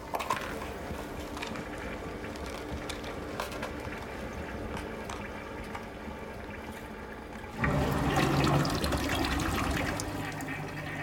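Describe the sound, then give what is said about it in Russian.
Rushing water from a push-button toilet flush after a pill is dropped into the bowl; a steady wash of noise that surges louder and fuller partway through and keeps pouring to the end. “Она бросила таблетку в унитаз и нажала на кнопку.”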